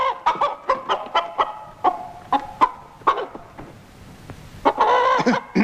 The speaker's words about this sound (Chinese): 咱们家的鸡最爱吃人家的谷子。